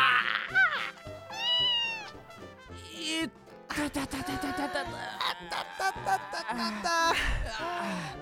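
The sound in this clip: A cat meowing, a few high, wavering cries near the start, followed by excited voices and busy movement.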